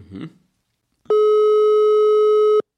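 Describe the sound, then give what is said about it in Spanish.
Telephone line tone heard while calling someone in Spain: one steady, even electronic tone holds for about one and a half seconds, preceded by a brief soft rustle. “vamos a llamar a Laura, a Laura, para ver qué nos dice. Ella está pendiente de esta llamada.”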